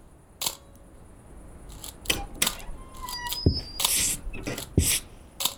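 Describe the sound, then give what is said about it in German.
A camera takes photos in several faint, crisp shutter clicks spread irregularly over a few seconds, one followed by a brief whirring burst, with no one speaking. “Ich mache mal ein paar Fotos.”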